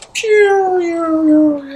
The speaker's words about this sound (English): You've got slamming doors, you've got creaky doors, you've got howling wolves